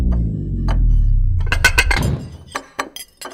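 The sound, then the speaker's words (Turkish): A magic food box closing in a folk tale, as a sound effect: a deep ringing tone fades away, followed by a flurry of bright glassy clinks and clatters and a few sharp knocks. “Kutu kapanıyor.”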